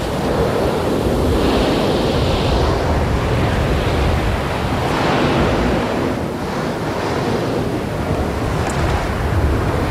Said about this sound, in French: On croirait le bruit de la mer, mais c'est le bruit de la terre. C'est un gouffre énorme.